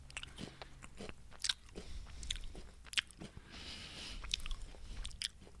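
Crunching and chewing of potato chips, several faint crisp bites breaking between softer munching sounds in an irregular rhythm.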